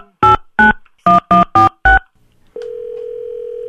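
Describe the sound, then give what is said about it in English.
A telephone call being dialed: six short touch-tone keypad beeps in quick succession, then a brief pause and a steady continuous line tone that holds to the end. “So we're going to put a call in to our friends.”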